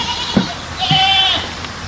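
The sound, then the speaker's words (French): A goat raised in the Alps gives a single wavering, nasal bleat over a low background hum. “J'ai élevé des chèvres au fin fond des Alpes”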